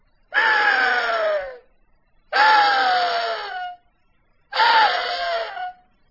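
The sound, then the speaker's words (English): Three long, raspy screams of a rutting axis deer buck, imitated on a latex reed call. Each wail is harsh and drawn out, sliding downward in pitch toward its end, with short silent gaps between the calls. “Well, let's show them what an Axis buck sounds like when he's screaming.”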